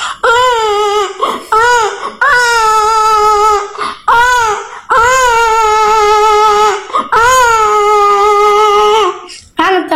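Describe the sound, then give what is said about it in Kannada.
A voice imitates a baby crying at night, with loud, high wailing cries drawn out in long bursts and broken by short sobbing catches of breath, repeated several times. “ಆನಂತರ ಅಲ್ಲೇ ನಮ್ಮ ಅಕ್ಕನ ಮಗು ರಾತ್ರಿ ಅಳುತ್ತಿತ್ತು.”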